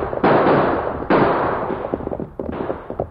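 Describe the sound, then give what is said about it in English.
Gunshots blast in a radio western shootout as lawmen fire on three fleeing outlaws: a few loud, sharp reports, each trailing off in a long rumbling decay, with smaller pops near the end. “We see three outlaws! Yes, they're leaving. They saw us coming. Use your guns, Tonto.”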